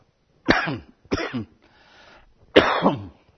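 Throat-clearing coughs from a person pausing mid-reading: three sharp, harsh bursts, the last the loudest, with a faint breathy rasp between the second and third, and no speech.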